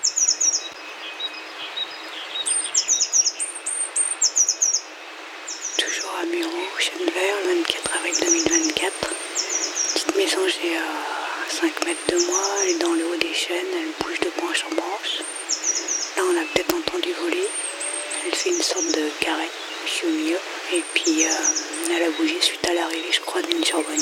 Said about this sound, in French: une mésange bleue à Mureau en Corse